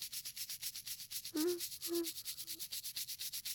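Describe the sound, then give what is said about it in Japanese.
Soft, brisk rubbing and polishing strokes in an ASMR roleplay repeat many times in a regular rhythm. A few short, low hummed vocal tones sit over the scrubbing. “きれいきれいに磨いてあげるから。あ、ここの裏も隙間も。”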